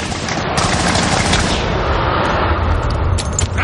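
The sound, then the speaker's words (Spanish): Rifle fire during a World War II tank battle in a film: dense, continuous bursts of gunfire and deep booms pound on without a break, loud throughout. “Miller mete el fusil por la escotilla del conductor y dispara.”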